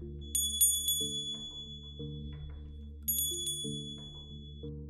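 A bell rings near a horse stable in the dark: two bursts of quick, bright, high dings about three seconds apart, each fading out, over a steady low droning tone.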